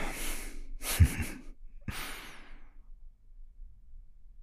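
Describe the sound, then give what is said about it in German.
Deep breaths are taken during a calm relaxation exercise: a few soft, airy rushes of breath rise and fade. They are faint and breathy, with brief pauses between them and no talk. “Nochmal einatmen.”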